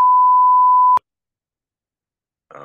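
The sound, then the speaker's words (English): Censor beep covering a swear word in a college football discussion: a single steady, high-pitched tone lasting about a second, then silence, with a voice starting briefly at the very end. “It's all right. We beeped it out.”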